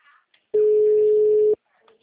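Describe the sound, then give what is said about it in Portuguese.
A WhatsApp call ringing tone: one steady, mid-pitched electronic tone lasting about a second, loud and even, with faint talk just before and after it. “Tenta chamar ele no WhatsApp.”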